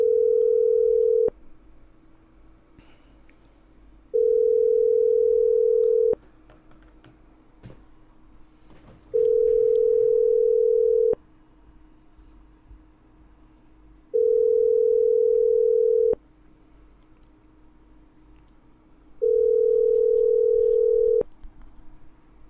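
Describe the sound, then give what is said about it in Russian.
Telephone ringback tone while a number is being dialed: five steady, mid-pitched buzzing tones, each about two seconds long, separated by roughly three-second gaps with faint clicks and low background hiss. “Так, так, этот. Вот он. Еще одной истерички набираю.”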